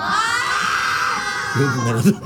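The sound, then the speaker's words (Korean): A studio audience screams and shouts on request, a loud sustained high cry lasting about a second and a half, after which a voice starts speaking. “인기투표 한번 해볼까요? 그래요. 여러분 남창이 좋아하는 사람 소리 질러.”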